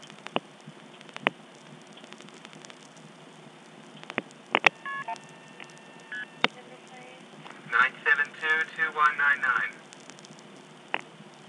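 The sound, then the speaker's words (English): A telephone dials a long-distance 1+ number to New York City through an old step-by-step exchange: scattered clicks and brief tones, then a rapid run of short multi-tone beeps in an even rhythm over a low hiss. “I'm going to dial 1+ a number in New York City.”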